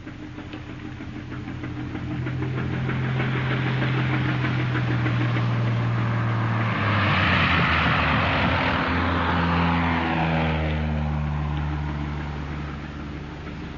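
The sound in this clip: An aircraft flies in with a deep, droning engine hum that swells in loudness, drops in pitch partway through, then fades slightly toward the end.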